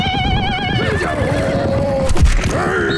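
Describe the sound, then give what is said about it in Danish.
A horse whinnies loudly as riders on horseback play a ball game on the Mongolian steppe. The long, wavering neigh drops in pitch, followed by a brief thumping burst and a shorter, fainter call. “der etterkommere av Genghis Khan spilte hodeskalleball fra hesteryggen.”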